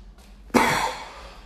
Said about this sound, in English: it would not be an episode without me coughing.